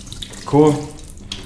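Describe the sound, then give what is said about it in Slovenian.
Cold tap water runs briefly over a small pointed pepper as it is rinsed after its seeds are removed, a short splashing gush that swells for a moment and then eases back to a soft trickle. “Najprej seveda odstranim koščice, enostavno držim pod hladno vodo”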